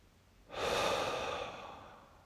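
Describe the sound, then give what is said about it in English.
A slow exhale through nose or mouth in a guided relaxation, a single soft, airy breath that swells quickly, then thins out gradually over nearly two seconds, with nothing else heard. “You may exhale through your nose or your mouth.”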